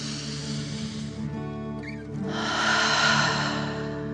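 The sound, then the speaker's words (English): Slow, deep breathing in and out during a guided meditation, a soft airy hiss that pauses briefly before swelling into a longer, fuller breath. “Deep dragon breath in and out.”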